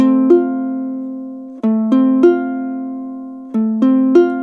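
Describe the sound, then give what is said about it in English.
Fingerpicked F chord on guitar: seven plucked notes, one alone and then two groups of three, forming a steady arpeggio that rings and sustains between plucks. Loud and clear, with no talking. “Now, if I change to the F chord, this second part would sound like this.”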